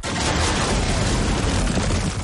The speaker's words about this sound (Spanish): El tanque dispara. Un coche que hay sobre la loma explota.